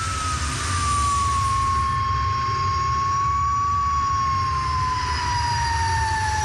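A Le Mans race car engine driven at about 140 to 150 km/h gives a loud, sustained, high whine over a steady roar. The pitch dips slightly and then climbs again near the end.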